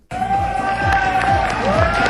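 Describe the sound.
Crowd cheering and shouting at a bodybuilding championship in New Caledonia, loud and continuous, with voices rising together throughout.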